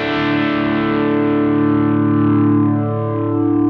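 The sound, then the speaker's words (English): A sustained chord rings out through a preamp with comb filtering added, giving a hollow, phasey, slightly distorted tone that holds steady and loud throughout with no voices. “just play a chord and I'll add some comb filtering into that preamp.”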